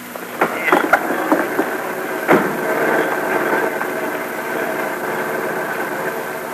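A car engine runs steadily while passengers climb in. The rumble holds an even, continuous drone, and a few brief clunks rise above it in the first seconds.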